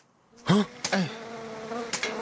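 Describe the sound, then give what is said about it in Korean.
A housefly buzzes around in short, swelling bursts that rise and fall in pitch, then settles into a steadier, thin drone. “파리가 이렇게 돌아다니”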